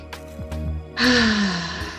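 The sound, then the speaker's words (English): A deep breath drawn in during a guided breathing exercise: one breathy rush lasting about a second, rising clearly above soft, steady background tones. “So deep breath in.”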